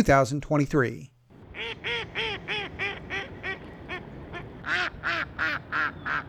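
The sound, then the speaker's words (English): Mallard ducks quack at a duck pond in Blacksburg, Virginia, in December, with a harsh honking call at the start followed by a long run of loud, rhythmic, nasal quacks, some in quick pairs. “Those sounds of mallard ducks”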